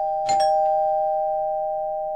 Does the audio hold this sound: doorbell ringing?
yes